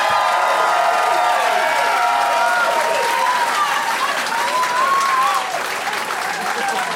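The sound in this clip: An audience bursts into loud, sustained applause mixed with cheering and scattered whoops, easing slightly toward the end.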